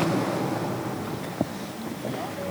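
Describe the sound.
Rough sea breaking against rocks gives a steady, broad rushing roar that continues without a break for the whole stretch.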